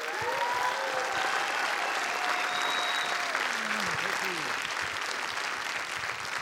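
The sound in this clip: An audience applauds after a speaker's introduction at an evening event. Dense, steady clapping runs throughout, with a few whoops and cheering voices rising above it.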